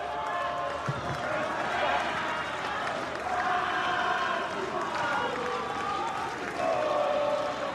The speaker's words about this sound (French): Et le public argentin qui chante.